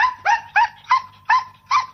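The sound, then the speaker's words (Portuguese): Dog barking, a high-energy working dog trained for operational tasks: six short, bright barks in a quick, fairly even rhythm over two seconds, with a slightly yelping edge and little else behind them. “São cães com extrema energia, sempre disponíveis para trabalhar.”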